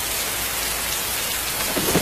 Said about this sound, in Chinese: 这是风声，这是雨声，